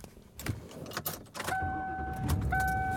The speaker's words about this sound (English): And I am driving home.